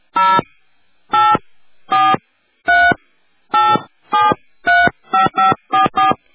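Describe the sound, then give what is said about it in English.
Telephone keypad tones dial a number, eleven short electronic beeps that change pitch from key to key. They start evenly spaced and come faster toward the end, with no other sound between them. “Please dial help with the area code and number you wish to call now.”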